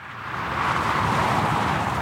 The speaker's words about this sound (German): So klingt die A8 kurz hinter Augsburg, westlich.